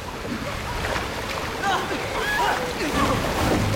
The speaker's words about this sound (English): The giant faucet continues spewing more and more water into the tank.